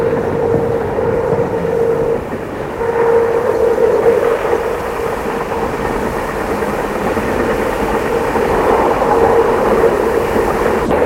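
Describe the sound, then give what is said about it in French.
A train setting off, giving a steady mechanical rumble with a clear tonal hum running through it. The sound stays continuous and fairly even throughout, with no voices. “Le train se met en route.”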